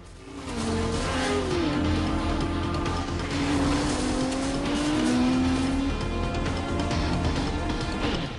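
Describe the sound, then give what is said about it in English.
Car engines roar as vehicles speed through a forest of palm trees in a chase, with revving engines and occasional tire squeal holding a loud, sustained level throughout. “They drive into a forest of palm trees.”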